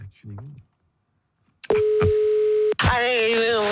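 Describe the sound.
Telephone dial tone: after a short stretch of speech and silence, a click opens a steady, level, mid-pitched hum held for about a second, cut off sharply as a voice starts talking.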